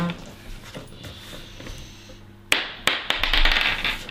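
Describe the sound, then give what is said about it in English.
Dice tumbling onto a table during a tabletop role-playing game session: after a stretch of low, steady background noise, a few sharp taps and clatters arrive in quick succession, then settle into a denser rattle. “Okay, guys, ready? The dice is about to fall.”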